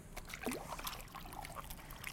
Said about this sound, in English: Okay, so I'm just gonna rinse it in the water.